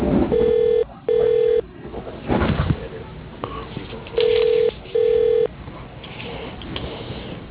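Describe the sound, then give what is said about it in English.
A telephone keypad sends four steady DTMF tones to dial an extension on an office phone system. The beeps come as two quick pairs separated by a stretch of muffled line noise. “For Dave, dial extension 204. For Troy and Estimating, dial extension 202. For Jen and Accounts Payable, dial extension 201.”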